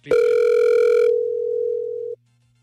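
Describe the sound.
An unanswered outgoing phone call gives a single steady ringing tone that holds for about two seconds and then cuts off into silence.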